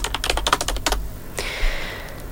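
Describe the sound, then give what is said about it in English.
Fingers type on a computer keyboard in a quick, uneven burst of crisp clicking keystrokes, then pause before one more faint tap and a soft trailing rustle. “Damn, if I could type.”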